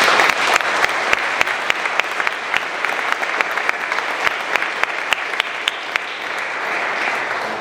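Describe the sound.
Applause from an upper-division school audience welcoming a speaker: dense, sustained clapping from many hands, loud and even for nearly eight seconds, with sharp individual claps standing out in the steady wash.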